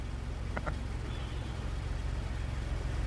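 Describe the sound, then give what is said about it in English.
Car engine as a vehicle drives up at the end of a film scene, a steady low rumbling drone throughout, with two brief clicks near the start. “And that's John Hamm driving up at the end of that scene.”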